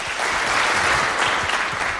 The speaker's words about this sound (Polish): poproszę tutaj o oklaski.